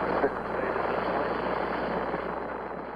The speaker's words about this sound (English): We have commit and we have liftoff at 2:13. The Saturn V building up to 7.6 million pounds of thrust, and it has cleared the tower.